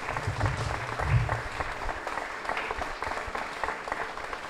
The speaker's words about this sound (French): Pascal Tiss, que l'on applaudit.